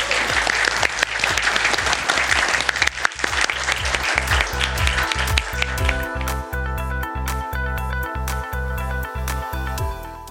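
Sustained audience applause thanking a panel at a live event at the Swift Institute room at Cybos in Sydney, dense and loud at first, thinning in the second half as a steady rhythmic tonal backing comes through.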